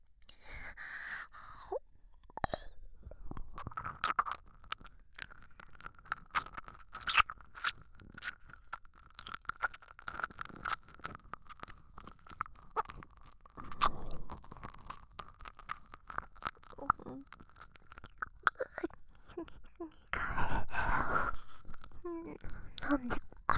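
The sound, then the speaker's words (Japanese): Wet ASMR ear-licking mouth sounds: many soft, quick clicks, smacks and slurps in an uneven rhythm, joined by a few breathy sighs, all fairly quiet. “耳の奥まで舐めればいいんでしょう。耳の奥まで舐めさせていただきます。”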